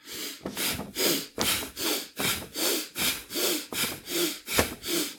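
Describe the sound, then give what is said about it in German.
Rapid, rhythmic breathing in and out as a person quickly raises and lowers the arms in an exercise: a steady run of about ten loud, rasping breaths with no talk. “Also Arme hochnehmen, einatmen, Arme runternehmen, ausatmen.”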